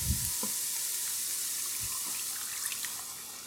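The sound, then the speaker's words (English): Half-and-half cream is poured into a dish as it cooks, raising a steady sizzling hiss with a few soft drips and splashes. “Okay, I think we're ready for the half and half. I'm going to go ahead and put that in.”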